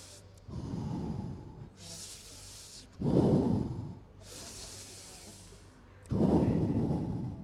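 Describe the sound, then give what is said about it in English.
Three deep breaths, each a slow, heavy draw of air followed by an airy, hissing release, spaced evenly in a steady rhythm with no talk. “Basil took three deep breaths”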